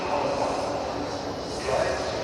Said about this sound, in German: Aber wie ihr vielleicht hören könnt, bin ich gerade am Frankfurter Hauptbahnhof. Kapitän Jansen, der muss hier gleich mit der Bahn ankommen. Ja, mit dem Zug.